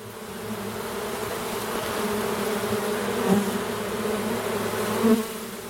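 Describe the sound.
Honeybees buzz around beehives kept by a pond, a steady droning hum that runs unbroken from start to finish and swells slightly near the end.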